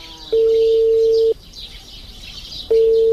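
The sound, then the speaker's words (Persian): Ringback tone of an outgoing phone call that goes unanswered: two long, steady, mid-pitched beeps, each about a second, separated by a pause of roughly a second and a half, over faint background hiss. “زنگ تیر میکنه خو جواب نمیته.”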